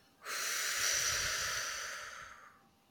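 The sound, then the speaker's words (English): A slow exhale during a guided breathing exercise, a steady airy hiss that starts suddenly, holds for about two seconds and then fades away gradually. The breath is heard alone, with no talk over it. “Breathe in. Hold 1, 2, 3, 4, breathe out.”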